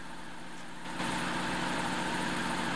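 A truck engine idles as the truck pulls up: a steady, droning mechanical hum that steps up in loudness about a second in and then holds.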